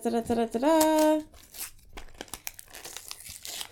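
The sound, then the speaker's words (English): Gift wrapping is torn open with crinkling and ripping paper, irregular crackles and tearing bursts following a short stretch of voice at the start. “had you open your gifts while you're on the podcast”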